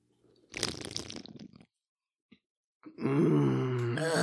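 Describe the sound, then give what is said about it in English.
A can of Busch beer being opened: one loud crackling, hissing burst of about a second, then a faint click, followed by a louder steady sustained sound. “So we're going to go ahead and open up our Busch beer because this is an old school story and we need our old school beer.”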